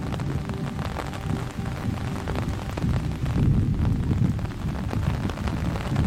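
Steady rain falling in a city as someone steps out under an umbrella, a dense hiss of drops with a heavy low rumble that swells slightly midway and runs on unbroken.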